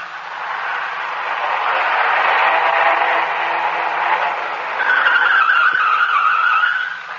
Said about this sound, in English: I grabbed the wheel in the nick of time. We almost dropped off an incline. I pulled to the side and shut the motor.